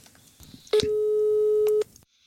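A telephone ringback tone plays while calling a friend: one steady mid-pitched beep lasting about a second, over faint background noise.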